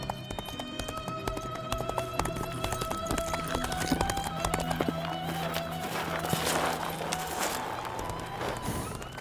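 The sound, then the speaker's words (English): Horse galloping along a trail, with many rapid hoofbeats pounding in a steady, even run at a constant loudness. “Lowe ran his horse along the eastern trail for about a kilometer, passing the Macaulay place”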